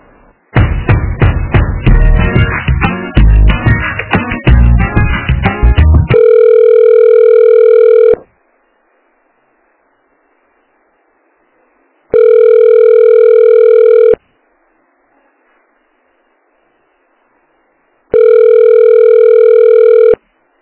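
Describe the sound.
Telephone ringback while a call is transferred: a burst of rapid clicks and knocks at the start, then three long, steady, loud ring tones separated by silent gaps of several seconds.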